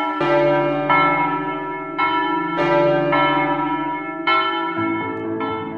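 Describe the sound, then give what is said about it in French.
Church bells ringing at Easter, several bells struck in an irregular, overlapping peal. Each bright clang carries long ringing overtones that fade slowly between strikes, loud and with no other sound. “la tradition racontait que les cloches partaient se faire bénir à Rome par le pape le jeudi, et sur le chemin du retour le dimanche, elles déposaient les œufs en chocolat dans les jardins, c'est ainsi qu'elles se remettaient à sonner”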